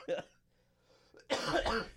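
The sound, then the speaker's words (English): A single short, sharp cough, followed after a brief pause by a voice talking. “Maybe I'll leave the cough in there just for the fun of it.”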